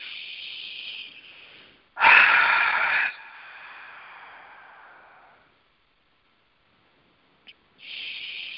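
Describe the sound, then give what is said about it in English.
Long, slow, deep breaths taken for meditation: a few airy breaths, one louder and fuller than the others, fading into a stretch of silence before the next breath begins. “we're going to take some, some long, slow, deep breaths in order to center ourselves. Just use the breath to bring you fully present, get you nice, centered, and grounded.”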